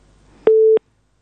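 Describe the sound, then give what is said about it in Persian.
Telephone busy tone after a caller's line dropped during a call-in show: one short, steady, loud beep follows faint background noise and is followed by silence. “خب تماس شنوندی ما قطع شد.”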